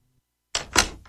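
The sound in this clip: A door lock is turned and locked with two quick clunking clicks in close succession, moderately loud and otherwise alone.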